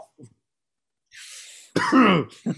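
Throat clearing from someone with something caught in the throat: a soft breathy rasp, then one loud, rough hack, then a brief final burst.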